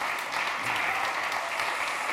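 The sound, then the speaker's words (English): A church audience stands and applauds to welcome a guest speaker: dense, steady clapping from many hands, even in loudness from start to finish. “Let's stand on our feet today and put our hands together and welcome Brother Joe McGee this morning.”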